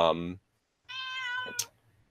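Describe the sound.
A cat meows in a few drawn-out, high, harmonic calls, with a short gap between them, and a voice is heard near the start.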